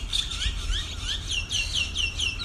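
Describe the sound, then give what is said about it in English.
Many Indian myna birds chirp and whistle as hundreds leave a palm tree roost in a city business district just before dawn. Their calls overlap in a dense, steady chorus with no talk. “Just before dawn in Maroochydore's CBD, hundreds of Indian minor birds leave their overnight roost in palm trees near the ABC studio.”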